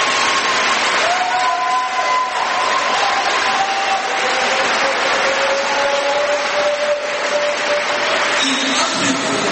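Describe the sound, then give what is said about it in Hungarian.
A church audience applauding after a sermon: a dense, steady wash of clapping that stays loud throughout, with some voices mixed in. “Ennél jobban is meg tudjátok tapsolni.”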